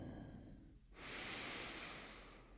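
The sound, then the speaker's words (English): A full, deep breath drawn in during a guided yoga moment: one broad, airy rush that swells in about a second in, holds steady, then eases off slowly, with no talk. “let's all together, just wherever you are listening to these words, just take a moment to close your eyes and let's take a full breath in.”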